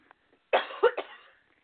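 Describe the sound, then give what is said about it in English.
A man coughs a few times in a quick, short cluster. The harsh, throaty bursts are moderately loud and stand alone against near silence. “Excuse me, I may be coughing a little bit.”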